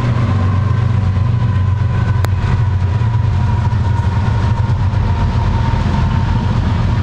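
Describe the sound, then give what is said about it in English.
Diesel freight locomotives, BNSF and Canadian Pacific units, roll past in a loud, steady, low rumble with a rattling, grinding texture and one brief sharp click. The sound continues unbroken throughout, with no voices. “I think people appreciate hearing the sound of the diesel locomotive, so I'm not going to interrupt that. Just let that play by itself.”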